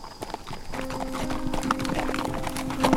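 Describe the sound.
Horses' hooves clip-clop as riders travel, a steady, rapid run of hoof strikes at an even, moderate loudness throughout.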